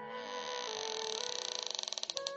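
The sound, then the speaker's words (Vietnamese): Long creak of a door opening by itself, starting as a smooth, drawn-out groan, then breaking into a stuttering series of creaky pulses that grow more spaced toward the end. “Vị Vương Sư Thúc này vừa dứt lời, cửa phòng tự động mở ra”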